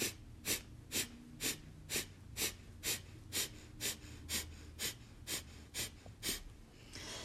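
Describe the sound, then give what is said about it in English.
Breath-of-fire yoga breathing: a steady, even series of short, forceful nasal exhales comes about two per second. Each is driven by the belly drawing in, with quiet passive inhales between. The sound is faint and alone. “exhale forcefully as the navel draws in, it kind of pushes the breath out. And when you relax the belly, an inhale neutrally is drawn in. So it kind of sounds like this.”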